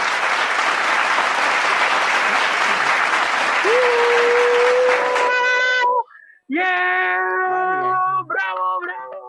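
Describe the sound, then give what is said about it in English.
Dense, sustained applause roars loudly for about six seconds, then gives way to a steady whistle-like tone and a run of tonal, meow-like sound effects. “Se oigan los aplausos.”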